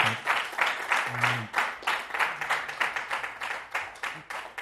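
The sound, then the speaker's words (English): An audience in Boston applauds Srila Prabhupada with many hands clapping, the sound rising and falling in quick repeated surges throughout. “I would like to give a big round of applause to Srila Prabhupada and beautiful”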